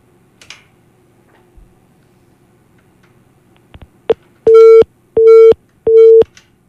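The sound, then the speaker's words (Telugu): Telephone disconnect tone after a cut-off call: a few faint clicks, then three loud, steady, identical beeps at a fixed pitch, evenly spaced with short gaps. “Call cut అయిందండి.”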